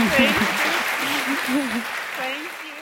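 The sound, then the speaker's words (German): Audience applause for two sisters from Nigeria, a steady wash of clapping that holds at an even level throughout, with a voice talking over it. “Insbesondere die beiden Schwestern brauchen jetzt einen extra Applaus.”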